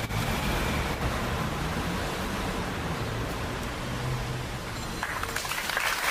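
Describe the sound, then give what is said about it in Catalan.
Sustained applause in front of Gandesa town hall, Terra Alta, following a minute of silence for a young girl who died at Fontcalda; dense, steady clapping fills the whole stretch without clear voices. “Aplaudiments després del minut de silenci davant l'Ajuntament de Gandesa per la nena de 9 anys que ha perdut la vida a la Fontcalda, a la Terra Alta”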